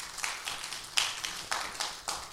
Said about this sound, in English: So let's give each other a round of applause this morning.